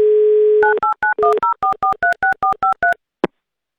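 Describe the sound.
Telephone dialing a call: a steady dial tone cuts into a quick, even run of many keypad tones, followed by a single short tone and then silence.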